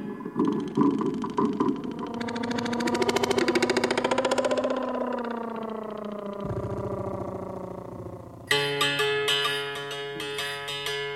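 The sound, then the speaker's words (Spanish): A loud engine runs with a pulsing, buzzing drone that climbs gradually in pitch over several seconds, then settles lower, before a bright musical passage enters near the end. “Ay, que suena un gran motor.”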